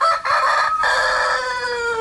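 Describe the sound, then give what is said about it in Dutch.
A rooster belonging to a small-animal breeder crows loudly in one long, drawn-out call that fills the whole moment, with a brief dip near its start. “En dat was de haan van Jan-Dirk Nijkerk, voorzitter van de Kleindierliefhebbers Nederland.”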